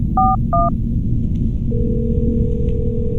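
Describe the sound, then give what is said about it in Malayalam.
Telephone keypad dialing: two short, bright dual-tone beeps in quick succession, then a steady, even call tone held to the end over a low background rumble. “ഇതാ ring ചെയ്യുന്നുണ്ട്.”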